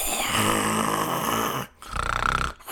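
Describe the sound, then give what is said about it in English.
A voice imitates heavy, loud snoring with two rasping, growling snores, a long drawn-out one followed by a shorter one. “So I'm sitting there and I'm waking up and he's like snoring hardcore.”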